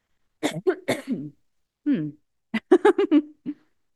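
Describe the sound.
Someone clears a tickle in their throat with a string of short, raspy coughs and throat-clearing bursts, some voiced, separated by brief silences.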